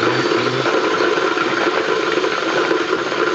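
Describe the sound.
An engine runs loud and constant with a rough, rattling drone that holds steady throughout the short stretch, with no voices over it.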